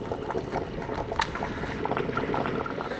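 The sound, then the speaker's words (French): A pot of garbure stew with leeks, carrots, cabbage, onion and garlic boils steadily. It makes a continuous soft bubbling and gurgling at low volume, with small scattered pops. “Ça me rappelle complètement mon enfance. Rien que quand je rentre dans une maison euh, chez ma mère, par exemple, l'odeur de la garbure, ça me, ravive plein de bons souvenirs. Euh, ça fait 20 bonnes minutes que ça bout.”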